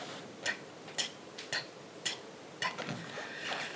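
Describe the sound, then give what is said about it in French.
A clock ticks faintly with a handful of evenly spaced, crisp ticks and quiet stretches between them. “Cette fois-ci, ça n'a pas marché. Tic, tac, tic, tac, tic, tac.”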